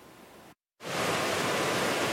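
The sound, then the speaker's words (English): A swollen river rushes after several days of heavy rain, its floodwater eroding the banks. It makes a broad, steady roar that drops out briefly near the start and then returns louder and continuous. “The rivers swell, funneling several days of heavy rain out of Kananaskis, eroding banks and washing out a bridge deck in the process.”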